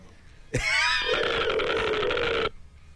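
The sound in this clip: A telephone ringing in a single sustained burst of about two seconds, a loud warbling electronic tone that cuts in abruptly and stops just as suddenly, with faint background noise before and after.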